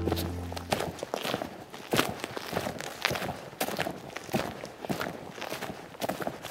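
Footsteps walking across the open plain on the west side of Æbelø island, a steady run of many crunching steps at an even walking pace with faint background noise.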